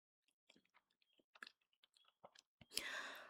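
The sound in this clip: Chewing and biting on chicken wings: a string of soft, irregular wet clicks and small crunches, sparse and faint at first, then a louder, sustained noisy burst near the end.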